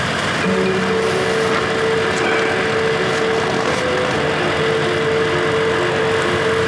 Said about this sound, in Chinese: 坐他那个车里，把油门踩一点，踩到2000转左右，让电流大一点。